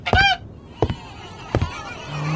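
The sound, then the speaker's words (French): A goose honks three times at even intervals, each a harsh, nasal call, with the first one the longest and loudest. “Qu'est-ce que c'est? C'est une oie.”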